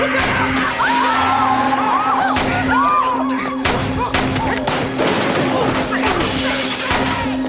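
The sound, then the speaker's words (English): Gunshots ring out from a pulled gun. A few loud, sharp bangs burst through a dense, noisy mix of voices and tonal sounds, then several more shots come in a quicker run. “So he's a drug dealer. He sees another drug dealer. Oh, he's pulling out a gun.”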